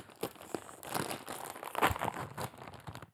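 A snack bag of turtle-shaped chips being opened gives off a busy, irregular stream of crinkling and crackling rustles, with a few sharper bursts along the way and no voices.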